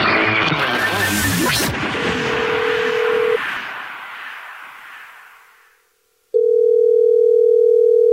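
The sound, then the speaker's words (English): Telephone line tones sound as a listener who texted in is called back: a noisy burst with a short flat tone, then a fade into silence, then a loud, steady tone that holds to the end. “You texted in at 41061 that you had a dirty little secret, and this is the Jubal Show calling you back.”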